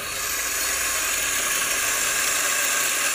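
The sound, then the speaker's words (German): A coffee grinder grinds an 18.7-gram dose of coffee for espresso, a steady, loud, hissing whir that holds the same level for the whole stretch without pause. “18,7 Gramm werden gemahlen.”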